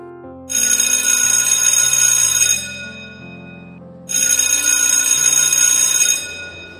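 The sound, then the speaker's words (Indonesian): School bell ringing for the end of the school day: two long, loud, bright electronic rings of about two seconds each, separated by a pause, with a low stepping melody underneath. “Akhirnya jam pulang sekolah pun berbunyi.”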